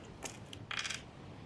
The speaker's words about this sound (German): würfeln